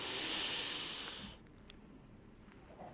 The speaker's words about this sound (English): Take another breath with me. And one more last one.